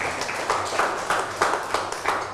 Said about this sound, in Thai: เอาปรบมือให้เพื่อนหน่อย